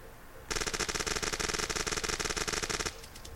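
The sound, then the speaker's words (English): Machine-gun fire in one sustained burst of about two and a half seconds. The shots are loud, rapid and evenly spaced, and the burst stops abruptly. “Machine gun.”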